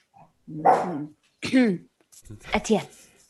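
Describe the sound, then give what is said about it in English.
A person's voice imitates an angry little dog barking: three main yappy, strained bursts after a faint opening sound, the last one rougher and longer, with no real dog present. “Yeah, that's my impression of when little dogs get angry.”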